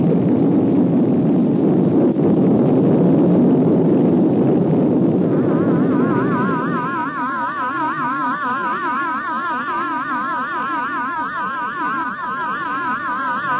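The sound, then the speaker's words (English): A rocket blasting off: a loud, broad, rumbling roar for about six seconds, then easing into a steady hiss with warbling electronic tones. “9, 8, 7, 6, 5, 4, 3, 2, 1. Blast off!”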